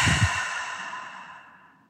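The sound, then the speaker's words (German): A slow, relaxed exhalation during a breathing exercise: one long, breathy outbreath that starts fullest and fades gradually to quiet over about two seconds. “indem wir tief einatmen, kurz den Atem halten und denkt euch Pause. Und dann lang und entspannt ausatmen”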